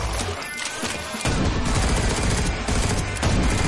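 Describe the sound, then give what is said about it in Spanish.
Gunshots are fired through a narrow window slit at zombies in a post-apocalyptic setting, a loud, dense fusillade of rapid, overlapping cracks that continues without a break throughout. “dispara por la rendija de la ventana.”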